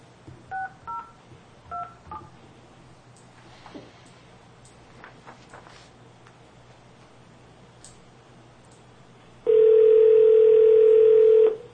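Telephone keypad tones as an account code is entered: a quick run of short beeps, then a quiet gap, then a long, loud, steady tone.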